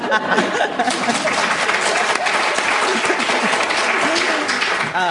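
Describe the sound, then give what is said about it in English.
An audience at a talk on African women writers breaks into loud, sustained applause, with many hands clapping steadily at full strength from start to finish. “I don't know what the audience thinks. Yeah, they just applaud, so I think they're absolutely behind you.”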